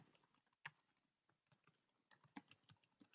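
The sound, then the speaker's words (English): Faint, irregular keystrokes tap on a computer keyboard, with quick soft clicks broken by a few sharper, louder strokes and short pauses between bursts. “I'll type it in.”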